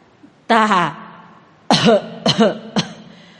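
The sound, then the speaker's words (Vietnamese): A hoarse, raspy voice coughs violently: first a long, drawn-out voiced hack, then after a pause a fit of several quicker, harsh coughs. It is loud and performed by a voice with no other talk. “Giọng nói khàn khàn bắt đầu ho kịch liệt, hổn hển nói:”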